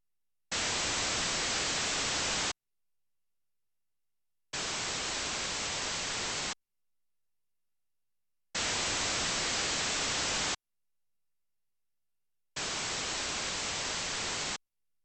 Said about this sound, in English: It is played first with identical signals at the two ears, then with independent samples of broadband noise at the two ears.